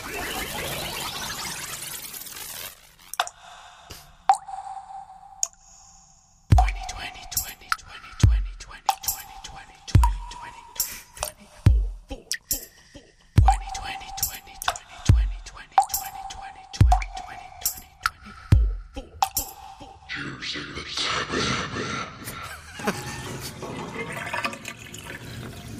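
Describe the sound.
Water dripping from a tap into a bath in a steady, rhythmic pattern of plinks with deep thuds under them, accompanied by whispering and, toward the end, a rushing splash of running water.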